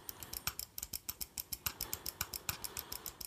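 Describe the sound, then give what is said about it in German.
Rapid, regular clicking from a leaking tape being pressed to make it run again: many evenly spaced dry ticks in a quick steady rhythm, faint, with no talking. “Warte mal, das Band ist leck. Ich drücke hier mal so ein bisschen. So, warte, gleich geht's wieder.”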